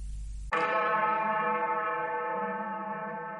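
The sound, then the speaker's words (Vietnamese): A single bell stroke after a short low rumble: the strike rings out with a rich, sustained tone full of overtones that hums on steadily and fades only slowly. “Một tiếng chuông ngân vang, thiên địa tĩnh lặng.”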